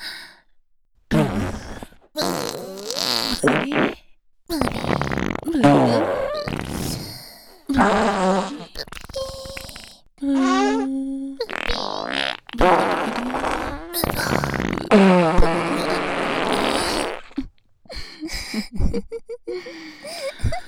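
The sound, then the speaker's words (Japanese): Fart sounds from a woman, many loud bursts of varying length in quick succession, some brief and sputtering, others drawn-out and rasping, separated by short silences. “よかったわね、大好きなおならで、うん、 鼻を鳴らすたび濃厚なおなら臭を嗅げるわね。”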